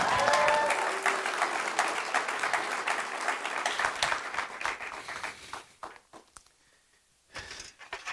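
A church audience applauds as a preacher comes up to deliver the morning sermon. Dense, full clapping runs for about five seconds, then thins out into scattered claps and fades to near silence.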